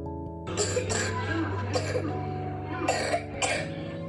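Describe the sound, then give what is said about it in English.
Typical wet cough, the productive kind seen with bronchitis or bronchiectasis: about five moist, rattling coughs in uneven bursts over a steady low background hum. “A typical wet cough sounds like this.”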